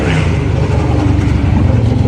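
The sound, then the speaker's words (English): Loud motorbikes going by, producing a continuous, heavy engine roar and rumble that stays strong and steady throughout. “loud bikes.”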